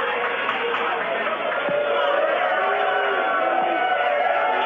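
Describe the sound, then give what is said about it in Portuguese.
Spectators boo in a court chamber during a sentencing. Many voices form a dense, sustained jeer that stays at a steady level, with scattered louder calls rising through it. “As vaias agora, olha o som do plenário.”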